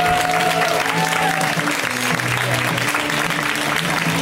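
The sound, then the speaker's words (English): Applause from a comedy club audience welcoming a comedian to the stage, a dense, steady wash of clapping that holds at an even loudness for the whole stretch. “Let's hear it right now for the amazing Adam Caton Holland. Give it up for Adam.”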